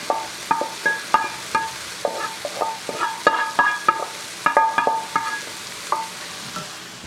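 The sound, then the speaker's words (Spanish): A spoon stirs freshly added lentils into a sizzling flavour base in a pot, giving many irregular scraping clinks against the pot over a constant low frying hiss. “Pues bueno, acá voy a agregar las lentejas. Listo. Voy a agregar las lentejas para que ya se vayan mezclando con toda esa base de sabor.”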